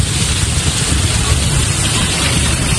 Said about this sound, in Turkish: Yağmur bardaktan boşanırcasına yağdı.